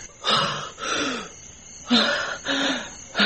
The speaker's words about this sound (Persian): اون حرکت کرد، نفس میکشه.